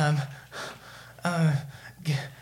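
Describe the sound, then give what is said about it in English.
A voice imitates a character sharply drawing a breath from an inhaler: a few gasping, voiced inhales with a breathy hiss, each swelling and fading in loudness. “and he takes a breath of his inhaler.”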